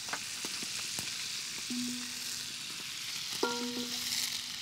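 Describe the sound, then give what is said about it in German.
Onions frying in butter give a soft, steady sizzle, faint and even, with a few light clicks and brief ringing tones scattered through it. “Jetzt kommen Zwiebeln. Oh, das riecht immer so fein, gell? Zwiebeln in Butter gebraten”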